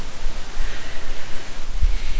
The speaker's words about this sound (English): Keep your back to me as you let the water run down you.